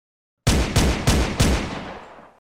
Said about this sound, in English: Sneering, the cop raised his pistol and pulled the trigger.